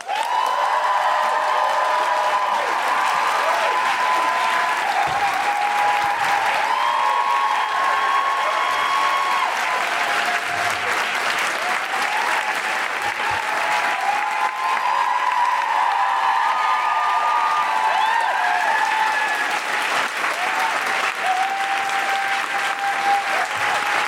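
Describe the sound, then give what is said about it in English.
Sustained applause from the audience at a live stage show as a performer is welcomed, with some whoops mixed in; dense, loud and steady throughout, with no speech over it. “Please welcome to the stage and make wonderful, woohooing, groundling, extraordinary, guilty feminist noises.”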